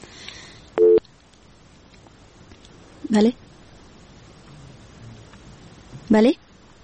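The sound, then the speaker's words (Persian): After a telephone call drops, three short, steady electronic beeps sound, separated by long pauses, over a faint background hiss. “بله فکر کنم که تماس ما قطع شد.”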